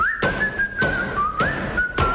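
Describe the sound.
A whistling hammer nailing plywood: a steady, high whistle with a slight wobble in pitch runs continuously while four hard hammer blows strike at roughly even intervals.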